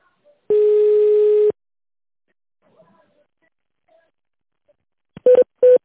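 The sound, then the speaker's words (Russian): Touch-tone dialing of a phone extension: one long steady beep, then a silent gap, then a few quick short tones at the end, loud and clean with no voices. “Если вы знаете внутренний номер сотрудника, наберите его в тоновом режиме.”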